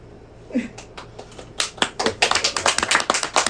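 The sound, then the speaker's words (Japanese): Applause from many hands clapping: a few scattered taps at first, then dense, continuous clapping that grows louder and fuller over the second half. “ちょっと待って、何の拍手ですか”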